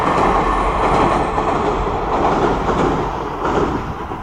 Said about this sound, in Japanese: あ、電車の音入ってますかね?すいません。すぐ通り過ぎると思うんで。